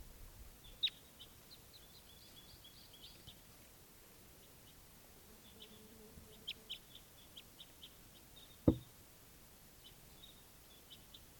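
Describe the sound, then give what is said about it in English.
Faint bird calls: a few brief, high chirps scattered through quiet background hiss, with a single sharp click partway through. “Oh, bird.”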